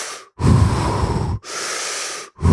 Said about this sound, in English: So really deep, somewhat fast breaths.